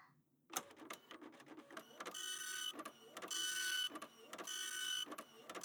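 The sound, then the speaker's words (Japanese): A printer prints an article: after a brief quiet start, its mechanism runs in repeated bursts of whirring and clicking, with short stops between passes of the print head. “待っててください。今、記事を印刷しちゃいますから。記事を印刷っと。”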